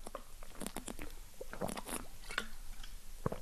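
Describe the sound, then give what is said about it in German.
A person sips a drink, producing many small wet mouth clicks, smacks and swallowing noises in an irregular rhythm, faint and close, with no talking. “Aber ich trinke mal kurz einen Schluck, bevor wir an die nächsten 10 Fragen gehen.”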